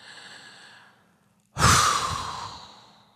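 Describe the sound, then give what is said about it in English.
A deep breath drawn in quietly, then forcefully and rapidly blown out, as part of a breathing relaxation exercise; the soft inhale gives way to a loud, breathy rush of exhaled air that gradually tapers off. “Then rapidly you blow out your breath. While doing this, you imagine you're dropping or blowing out all of your mental activity. So deep breath in.”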